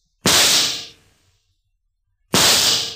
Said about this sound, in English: You just pulled out your gun and you shot them both. Like this.